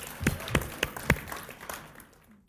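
Sparse clapping from a church audience: four distinct claps at an even pace, then scattered fainter claps that fade out.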